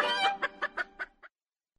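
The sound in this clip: Chicken clucking: one drawn-out, harmonically rich squawk followed by five short, evenly spaced clucks, then silence. The bird is loud and clear, with no voices.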